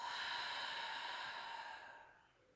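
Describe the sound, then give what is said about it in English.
A slow, deep breath taken during a guided breathing exercise, in through the nose and out through the mouth: one long, steady airy rush that fades away near the end, with no talking. “So big breath in through the nose. And out through the mouth.”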